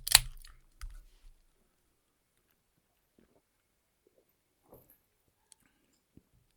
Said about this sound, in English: So I'm going to go ahead and crack the beer, and then I will take a sip